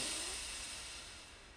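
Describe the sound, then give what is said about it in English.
A single deep breath out, a soft airy hiss that fades steadily over about a second and a half. “Deep breath in and out. Another deep breath in”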